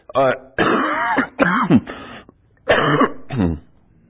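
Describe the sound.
Coughing and throat clearing: a few rough, strained bursts with voiced, groaning sounds between them, separated by short pauses.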